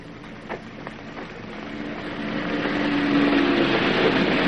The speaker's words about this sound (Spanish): Llegan dos coches frente al puesto de mando con alemanes y un prisionero.